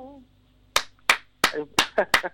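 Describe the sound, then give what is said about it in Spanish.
Rhythmic clapping from a small audience of about 18 people at a Spanish-language show. Sharp, loud claps fall in a steady beat after a brief voice at the start. “Muy bien, acá estábamos todos aplaudiendo. Somos como 18, te aviso acá.”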